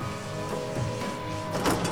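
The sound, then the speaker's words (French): An elevator travels upward with a steady, broad mechanical whir and hum, holding an even level throughout and swelling slightly brighter near the end. No talking is heard. “Et là, on monte l'ascenseur. Là, ça monte jusqu'en haut où il y a la porte de la Maison des Femmes.”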